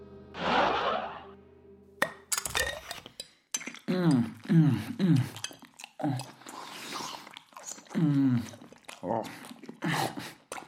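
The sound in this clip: Someone eating mayonnaise with cutlery: a few sharp metal clinks and wet chewing sounds come in short bursts, with voiced sounds between them.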